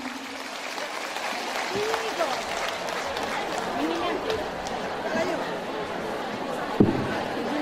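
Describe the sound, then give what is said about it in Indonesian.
Audience applause welcoming the Islamic preacher Ustadz Wijayanto on stage: a steady wash of clapping mixed with crowd chatter, holding at an even level, with one sharp loud knock near the end. “Kita berikan aplaus yang meriah untuk Pak Ustadz Wijayanto.”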